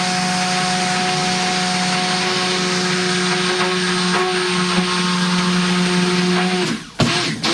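A motorized mixer whirs loudly in a mixing bowl, blending oils with lye to make soap. It is a steady, droning motor whine with humming tones that holds for several seconds, then cuts out abruptly near the end with a brief clatter.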